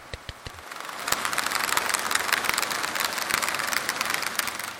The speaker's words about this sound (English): and it's actually the propeller of a ferry passing.